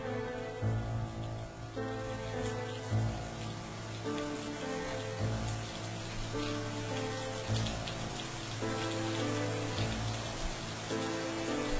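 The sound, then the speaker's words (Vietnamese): Steady rain falls outside as a soft, continuous hiss of drops on surfaces, faint and even throughout, with sustained musical tones underneath. “Ở bên ngoài trời rả rích một màn mưa ẩm ướt.”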